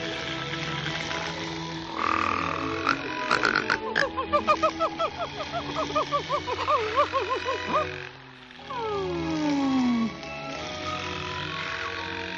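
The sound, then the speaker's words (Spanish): A cartoon dwarf snores while asleep on a bench. The snore is a long, buzzy run of rattling, croak-like pulses, followed by a whistling tone that slides down in pitch. “Perezoso duerme en el banco apoyado en el trasero de Mudito. Debido a sus ronquidos, a Mudito le entran costillas.”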